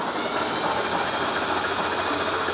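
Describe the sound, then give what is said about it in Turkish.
An old engine, unrun for 17 years and dosed with diesel fuel, running with a loud, steady, rapid mechanical clatter that stays even from start to finish. “Bu son 17 yıl boyunca ilk kez motorun ateşlenmesi olacak. Umut ediyorum ki eklediğimiz bütün motorin bu sayede deliklerden dışarı fırlar ve motor temizlenir.”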